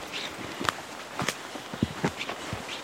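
Footsteps hurry over tree roots beneath spruce trees, a handful of soft, uneven thuds and crunches at an irregular pace, fairly faint.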